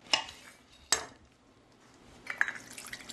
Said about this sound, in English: And okay, I'm cutting it in half crosswise.